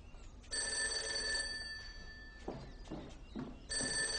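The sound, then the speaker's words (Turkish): A telephone bell rings in a home: two bursts of bright, steady, shrill ringing, one near the start and one at the end, with a quieter stretch between them. “Çalan telefona Handan yürüdü.”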